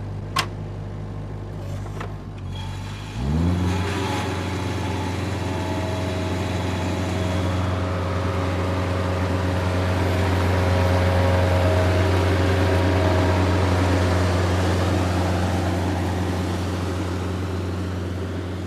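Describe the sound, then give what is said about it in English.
A lawn mower mowing gardens starts with a few faint clicks, then jumps into a loud, low, steady engine drone. The drone holds unbroken for the rest of the time. “How long does it take you to mow the Commandery Gardens? About 30 minutes.”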